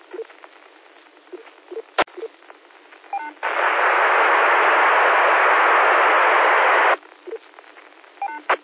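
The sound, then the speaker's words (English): Courtesy tones sound from the linked 6-1 and 8-2 amateur radio repeaters as short beeps over narrowband radio hiss. A few seconds of loud, steady static burst in the middle. “And you're hearing the courtesy tone from the 6-1 and you're hearing the courtesy tone from the 8-2, both of them.”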